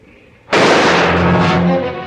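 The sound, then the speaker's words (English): A single loud warning gunshot in a bank robbery drama: an abrupt, sharp blast followed by a long, rumbling tail that slowly fades. “Barlow spots a gutsy teller reaching for a gun under his desk and fires a warning shot.”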